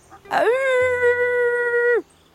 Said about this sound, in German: ältere Wölfe können auch hundeartig wuffen, so warnen sie vor Gefahren.